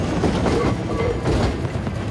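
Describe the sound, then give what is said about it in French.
A tram rolls past in Cairo with a loud, continuous rumble of wheels on rails and a soft clatter that holds steady from start to end. “Et là-haut, attention, le tramway!”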